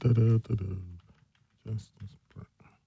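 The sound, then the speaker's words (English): Computer keyboard typing as someone enters a web search, with short keystroke clicks mixed in with a talking voice. “I got to type it.”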